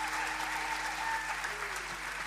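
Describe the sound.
Audience applause rises for a blues trio with bass and drums, a steady, dense wash of clapping that holds throughout without a break.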